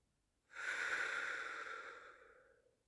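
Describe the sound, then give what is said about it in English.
One slow, deep breath: a soft, airy rush of air that starts suddenly, holds steady, then gradually fades away. It is heard alone and is quiet. “And take a nice, big breath in with me. Let it out.”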